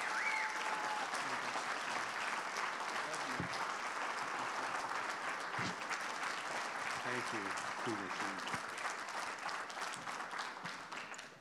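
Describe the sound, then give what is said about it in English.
Applause from a church audience giving a standing ovation to guests welcomed to the platform: dense, steady clapping that fills the whole stretch at an even loudness, with some voices mixed in. “Lifehouse, can we stand to our feet and give them an ovation of honor this morning as we welcome them to the platform?”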